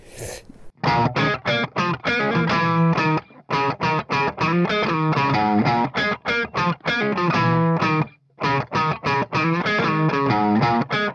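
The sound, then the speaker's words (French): Funk guitar riff in B flat in a P-Funk style, with a distorted, effects-heavy tone. Many short, choppy notes repeat in a tight, driving pattern, broken by two brief pauses. No one speaks. “Et là, c'est un riff très ambiance P-Funk un peu.”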